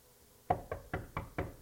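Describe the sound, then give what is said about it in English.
Knocking on a front door: five quick knocks in a slightly uneven rhythm, fairly soft and dull, with no voices. “And so I knock on the door,”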